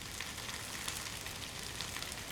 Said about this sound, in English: With the pak choi sizzling away in the pan